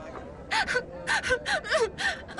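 A person crying in a rapid series of gasping sobs and whimpers, each breathy catch rising and falling, fairly loud and with no talk over it.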